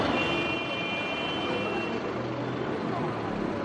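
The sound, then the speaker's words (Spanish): City traffic noise: a dense, steady roar of road vehicles that holds at an even loudness throughout, with no break or lull. “Sonido de tráfico en las ciudades, sobre todo. Este es el sonido más estresante según la ciencia”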